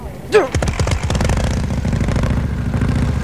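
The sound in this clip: An engine starts up with a brief whirring catch, then fires into rapid, even pulses that settle into a steady, loud chugging run.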